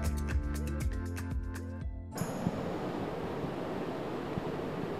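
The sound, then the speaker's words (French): Water flows steadily over a river dam at Le Mans as a broad, even rushing wash that follows a short opening stretch of tonal music. “Vous entendez derrière moi l'eau de l'Uine ruisseler au niveau du barrage de l'Épau au Mans.”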